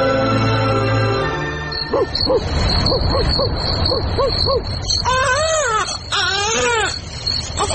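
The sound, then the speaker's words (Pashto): A baby crying in a radio drama, a child who cries constantly though apparently healthy after the family moved to the city: repeated short wailing cries with arching pitch, following a steady low tone at the start. “کومې ورځې راهیسې چې ښار ته راکډه سوي نو ماشوم یې پرله پسې زاړي که څه هم ماشوم په ظاهره روغ دی خو بیا هم هیڅوک یې د زړا په علت نه پوهیږي”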